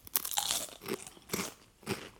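Crunching of truffle-flavoured potato chips during tasting: a few quiet, dry, crackly bites and chews at an uneven pace, with no talk.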